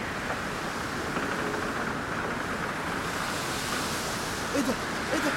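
Ocean waves roar as a drama sound effect for a stormy sea with high waves, a steady, broad wash of noise throughout, with a couple of faint, brief sounds near the end.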